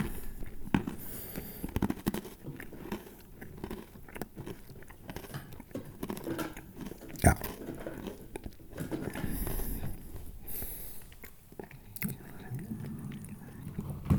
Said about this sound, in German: Dass wir noch so eine Brezel essen. Salzstangen oder Brezeln ist ja wurscht, soll man, soll man ja essen.